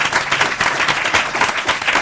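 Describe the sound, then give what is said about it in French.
Studio audience applause, a dense, loud wash of many hands clapping continuously for about two seconds, with no speech over it. “On peut encore l'applaudir.”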